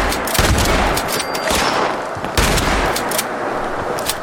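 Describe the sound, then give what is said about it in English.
Shotgun blasts in a video game, many loud sharp bursts of gunfire in irregular succession, each with a rough noisy tail, with no voices between them. “Note to self, shotguns not so good at distance.”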